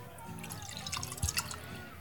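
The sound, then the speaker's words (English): Beer being poured: faint liquid trickling and gurgling with a few small drips and splashes, brief and quiet. “That is the sound of a beer being poured.”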